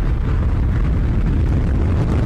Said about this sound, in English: SpaceX has successfully launched four astronauts into space aboard a recycled rocket about 6 a.m. Eastern Friday morning.